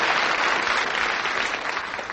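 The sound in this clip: Applause from an audience, a dense and steady wash of many hands clapping that fills the whole stretch and thins slightly near the end.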